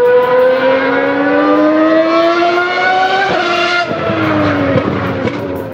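A race car accelerates on a track, its loud, high engine whine climbing steadily in pitch, then dropping sharply through a few quick gear shifts with no voices.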